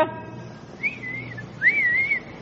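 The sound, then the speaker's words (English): A man's wolf whistle aimed at a woman: two shrill whistled notes, a short wavering one followed by a longer one that rises and then holds steady. No talk is heard. “Yes, Melissa was the kind of girl men whistle at.”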